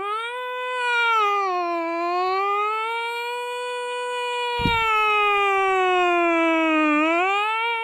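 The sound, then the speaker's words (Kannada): A human voice imitates a siren, holding one long, loud wail that slowly sweeps up and down in pitch, with a brief click partway through. “Immediate ಆಗಿ ನನ್ನ ಬಾಯಿಂದ annoyingly ಬೇಕಂತಲ್ಲ siren ಶಬ್ದ ಬಂದ್ಬಿಡ್ತು.”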